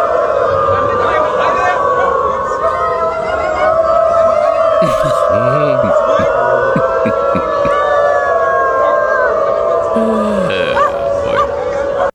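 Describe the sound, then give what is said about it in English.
A crowd of people at a gathering in Berlin howls in imitation of dogs, with many overlapping, wavering, siren-like howls held loudly and continuously throughout. “There's a clip of hundreds of people, Germans, who identify as dogs as they gather in Berlin.”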